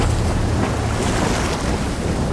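Sea waves and wind around a sailing ship out at sea, a loud, steady rush of surf and gusting wind that fills the whole clip without a break.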